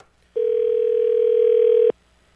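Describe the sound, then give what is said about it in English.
A telephone dial tone: one steady, even tone of about one and a half seconds that starts and stops abruptly, heard alone. “you dial the number. So we're going to give it a call”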